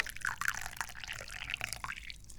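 Tea being poured, a faint, steady liquid trickle with small splashy drips throughout.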